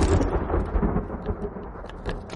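Thunder after a lightning flash in a storm scene from a horror film: a deep, continuous rolling rumble that stays loud and steady across the whole clip, with no voices.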